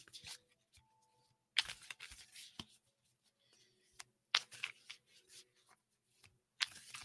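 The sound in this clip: Oracle animal cards being shuffled and handled for a card reading: quiet, scattered flicks and soft card rustles, with a few sharper riffs standing out, no voices.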